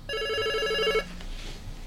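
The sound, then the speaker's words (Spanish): A telephone ringing with an incoming call, one bright electronic trill with buzzy, steady harmonics lasting about a second before it cuts off into faint background noise. “Ahí, llamada telefónica.”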